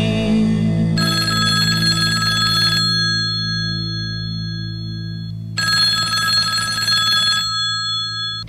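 A telephone bell rings in two long bursts of about two seconds each, separated by a pause, over a steady low background.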